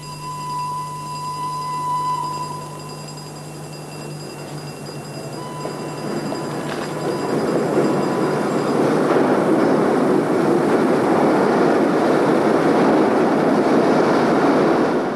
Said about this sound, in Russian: Гвидо на вокзале в Кьюзи с букетом цветов. Под своды входит локомотив.